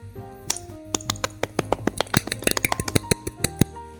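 One person claps by hand: many sharp, crisp slaps in an uneven run that bunches up toward the middle, over a faint tonal background.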